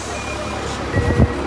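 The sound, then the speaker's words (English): A city bus with air brakes rumbles low as a passenger climbs aboard. The engine swells in a couple of short surges near the end, with a faint steady tone above. “hold on, I just got on the bus”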